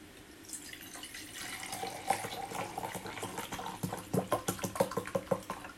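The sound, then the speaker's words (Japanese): Barley tea pours into a glass with a faint, continuous liquid trickle that turns into quicker gurgling splashes toward the end. “麦茶入れたんだよ。”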